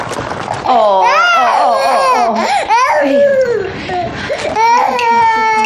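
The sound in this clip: A baby cries after being fed: loud, sustained wailing with sobbing breaks and rising and falling cries that carry on almost without pause.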